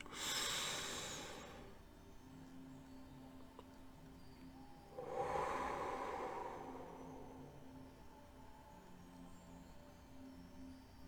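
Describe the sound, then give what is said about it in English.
Slow, deep breaths drawn through the nose during a guided meditation exercise: two soft, airy rushes, one at the start and one midway, each fading out over a faint steady hum in otherwise quiet surroundings. “Do the nose again. Release. One deep breath.”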